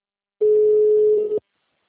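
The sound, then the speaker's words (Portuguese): An incoming call tone on a phone line, when someone rang an extension and the call dropped into an ongoing conversation: a single loud, steady, even-pitched tone lasting about one second, heard alone. “Eu acho que alguém chamou ela no ramal dela e acabou caindo na ligação dela.”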